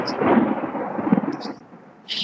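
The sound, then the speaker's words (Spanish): Thunder from a storm with no rain: a deep, rough rumble that rolls steadily, eases briefly, then swells again at the close. “Esa tormenta. Sí, pero está que suena hace rato y no hay nada de lluvia.”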